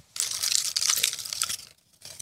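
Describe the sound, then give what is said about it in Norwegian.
Paper slips rustle and crinkle as a hand stirs them in a bowl and draws one out. A busy, crisp crumpling runs for over a second, then stops briefly before a short final rustle. “Vi trekker første kategori, og det gjør vi ut av en bolle med noen lapper eh, i her.”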